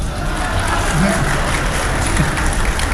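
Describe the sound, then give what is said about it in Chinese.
Audience applause at a live comic crosstalk show, a dense, steady patter of clapping filling the whole stretch with faint voices mixed in. “别瞎给鼓掌，哪儿您就鼓掌来了？”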